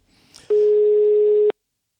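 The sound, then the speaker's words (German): Telephone ringback tone while placing a call: a faint click and rustle, then one steady low-mid tone lasting about a second that stops cleanly, followed by silence. “Und eine solche werden wir jetzt anrufen, denn sie hat sich bei uns gemeldet”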